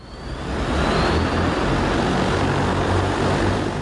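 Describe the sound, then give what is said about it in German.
An Ehang passenger air taxi flies during a demonstration flight in Guangzhou, its loud, steady whirring rotor roar building over the first half second and then holding constant, with no voices. “Trotzdem, Reiche hat sich mit chinesischen Politikern und Wirtschaftsbossen getroffen und dabei auch ein Flugtaxi getestet. Wie das klingt, hören Sie im Bericht von Maximilian Seib aus Guangzhou.”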